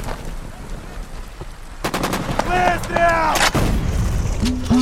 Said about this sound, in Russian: Ее тут же пронзает пулеметная очередь.